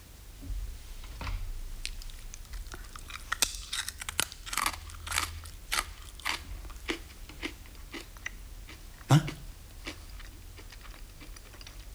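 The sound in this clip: Crisp crunching and chewing as someone tastes freshly prepared puffed food, many irregular sharp bites and crackles with one louder crunch near the end and no talk.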